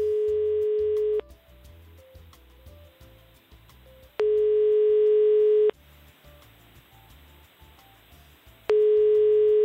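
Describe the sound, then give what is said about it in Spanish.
Telephone line tone while a call is placed: a steady single-pitched tone sounds in three long bursts of about a second and a half, separated by pauses of roughly three seconds filled with a faint, busy background murmur. “Estamos llamando.”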